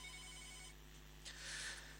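A telephone rings as a waiting caller is put through on a phone-in line: a steady electronic tone that gives way to a short burst of hiss near the end, with no talk.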